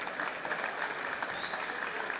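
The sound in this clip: Audience applause at a live show celebrating success: a dense, even wash of clapping that stays steady and fairly loud throughout, with no distinct voices.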